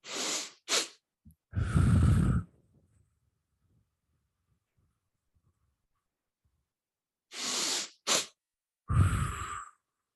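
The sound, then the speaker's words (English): Physiological sigh breathing done twice: two quick sniffing inhales through the nose, then a longer, louder breathy exhale through the mouth. A long silent gap separates the two rounds, with no talk. “it's called physiological sigh, and it's a double inhale through the nose with a longer exhale through the mouth. So it sounds like this.”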